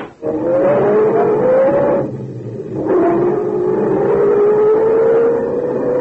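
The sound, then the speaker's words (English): A sedan drives off with a loud, steady engine drone that rises in pitch, dips briefly, then climbs again as the car keeps accelerating. “you hurry the half block to the sedan. And Laura... Move over. I'll drive.”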